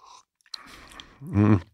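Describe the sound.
A slurp of coffee being tasted, a low-grown coffee with a yellow-pea flavour: a soft noisy sip after a faint brief sound, then a short low voiced hum at the end.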